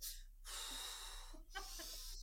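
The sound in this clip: An adult voice imitates a toddler taking fast, deep breaths, producing a few long, hissing, breathy inhales and exhales. The breaths are faint and no words are spoken.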